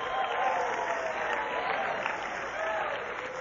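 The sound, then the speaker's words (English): An audience applauding their president at a morning gathering, a continuous, fairly soft wash of clapping that stays even throughout without clear peaks or breaks. “you can go ahead, applaud, whistle, whatever.”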